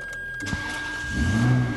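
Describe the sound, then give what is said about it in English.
Ferrari sports car engine starting: a sharp click, then a low engine rumble that swells louder near the end, with no voices. “gets to start his Ferrari”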